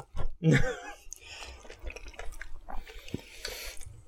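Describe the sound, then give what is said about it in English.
Wet chewing and mouth noises from a person eating cake with marshmallow. A couple of louder smacking bursts come first, then softer, irregular squelches and clicks continue. “so the first 10 minutes of recording is just eating cake”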